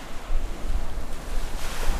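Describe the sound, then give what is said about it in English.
Waves crash on the Lake Michigan shore at the Milwaukee lakefront at dusk, a steady wash of surf with gusting wind noise and no voices. “It's about dusk. James Greer and his granddaughter Daviana are standing on the edge of the lake, watching the waves crash in as the water splashes their shoes.”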